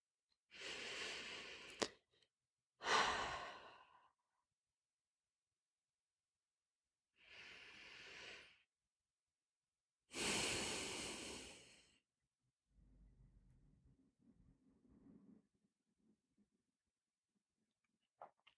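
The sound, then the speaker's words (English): Slow, deep breaths taken during a guided relaxation exercise: several long, airy inhales and exhales separated by quiet pauses, ending with a softer, lower breath. “Now turn your attention to breathing. Let's take 3 deep breaths.”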